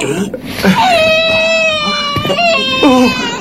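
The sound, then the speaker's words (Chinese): A feverish baby cries in drawn-out, high wavering wails broken by short sobs, with an adult voice speaking softly at moments. “好， 不哭不哭， 好不哭 不哭”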